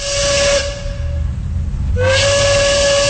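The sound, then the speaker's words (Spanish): A steam train whistle sounds in two sustained, steady-pitched blasts separated by a brief lull, over a continuous hiss of steam. “estamos listos para ya irnos a la primera estación del tren de la tarde.”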